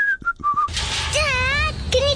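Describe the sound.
Whistling: a few short, clipped high notes open the passage, then a wavering, sliding melodic whistle rises and dips before a final brief note.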